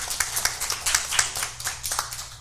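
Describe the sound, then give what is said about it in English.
A small audience applauds a couple's 59th wedding anniversary with sparse, distinct hand claps that come in an irregular, fairly quiet patter. “And our anniversaries are Leonard and Donna Harville, July the 2nd, and 59 years is what it was. And you can go ahead and applaud that.”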